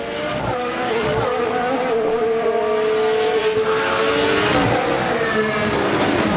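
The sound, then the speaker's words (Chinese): Two Mercedes Formula 1 race cars produce a loud, steady, high-pitched engine whine with strong harmonics that drifts slightly in pitch, heard alone throughout. “这边还是两辆梅奔的赛车，拉塞尔在第一，安东内利呢在第二”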